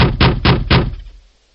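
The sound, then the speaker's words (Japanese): Hard knocking on a room door: four heavy, evenly spaced knocks in quick succession, loud and booming, followed by a fading rumble. “激しく部屋のドアを叩く。”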